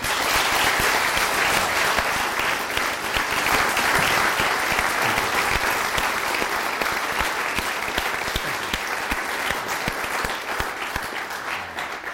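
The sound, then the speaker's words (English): Sustained applause from an audience welcoming Prime Minister Tony Blair to a morning lecture at the LSE. The clapping is dense and loud, holds steady throughout and eases slightly toward the end. “So please give another warm welcome to the Prime Minister,”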